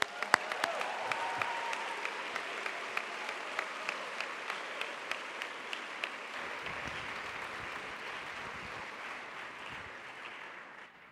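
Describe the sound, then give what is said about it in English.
Audience applause welcomes a reverend as a speaker: dense, sustained clapping with a few sharper standout claps, slowly thinning and fading toward the end. “It is a blessing to have him here with us, so please give him a warm Scots welcome.”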